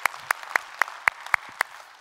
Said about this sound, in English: So if you would, put your hands together and give them a warm welcome as we study God's Word.